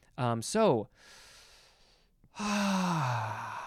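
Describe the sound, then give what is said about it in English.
A big, deep breath taken mid-conversation: a brief voiced sound, then a long, soft, airy inhale, followed by a loud, relieved voiced sigh that slides downward in pitch as it fades. “Oh, boy, it feels so good to take a big, deep breath.”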